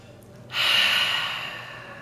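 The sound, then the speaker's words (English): A single deep breath through nose and mouth, a soft airy rush that starts abruptly, swells, then slowly tapers away, heard alone without talk. “Let's all just take a nice deep breath in through the nose and out through the mouth.”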